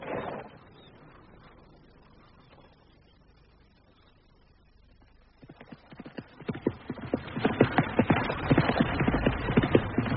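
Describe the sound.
Horse hooves clip-clopping: after several quiet seconds, a rapid rhythmic beat of hoof strikes enters faintly and grows steadily louder.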